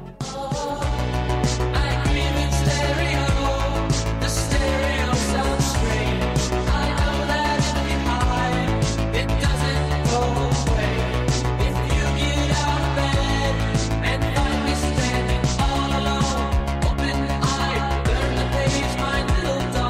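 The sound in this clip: A band's song plays loud and steady throughout, with a driving, repetitive beat, a pulsing bass line and dense layered instruments and no talking over it.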